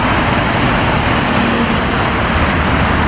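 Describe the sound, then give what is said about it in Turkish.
Heavy, congested road traffic on the D100 highway in Istanbul, a loud, constant roar of engines and tires with no breaks. “İstanbul'da bayram tatili sonrası trafik yoğunluğu %60'lara ulaştı. D100 karayolunda araçlar ilerlemekte zorlandı. Trafik dakikalar ilerledikçe arttı.”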